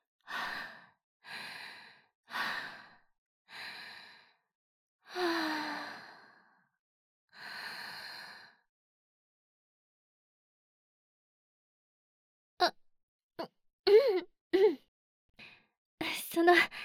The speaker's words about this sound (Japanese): 深呼吸、深呼吸。あれ、逆か。吐いて吸わないと。